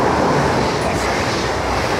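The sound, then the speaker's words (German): An ICE high-speed train rushes by at a railway station, producing a loud, steady, broad roar that fills the whole clip with no break and no clear wheel rhythm. “Während hinter ihnen ein ICE vorbeidüst.”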